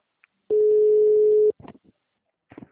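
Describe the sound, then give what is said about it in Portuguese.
A telephone ringback tone sounds while a call connects: one steady, low-pitched beep lasting about a second. A few brief, faint voice sounds follow. “Ah, não, tá chamando ainda.”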